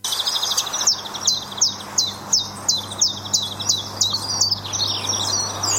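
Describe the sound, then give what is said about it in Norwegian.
Common chiffchaff song: many high, clipped notes repeated in an even, steady rhythm, heard alone over a faint low hum. “Jo, det er en sanger, en liten en. Den heter gransanger.”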